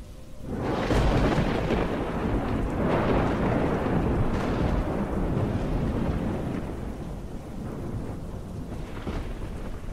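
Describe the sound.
Thunder rumbles through a storm with wind and heavy rain, several deep rolls rising over a constant loud hiss of downpour that lasts the whole time.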